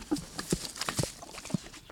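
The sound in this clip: Swedish half-blood horse munching hay, with a few sharp, crisp crunches spaced irregularly over a quiet background.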